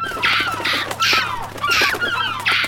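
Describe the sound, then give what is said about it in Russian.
Calls of cheeky gulls crowding a lunch table: five harsh, squawking cries at a fairly even pace, each a short bright burst over a low steady hum. “Пожалуй, лучше покормить этих нахальных чаек, а то мы останемся без обеда.”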